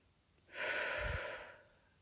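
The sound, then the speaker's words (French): A single long, deep breath taken during a calming exercise, one soft breathy rush of air that swells and fades over about a second, alone with no talk. “le temps de respirer, de prendre de grandes, de profondes respirations.”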